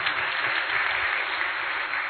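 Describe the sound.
A group session audience applauds after a cooking activity, keeping up even, continuous clapping at a moderate level with no clear voices over it.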